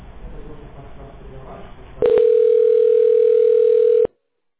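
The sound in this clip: A telephone line tone plays while a call is transferred: a steady, single-pitched tone holds for about two seconds and then cuts off abruptly. Muffled talk comes just before it.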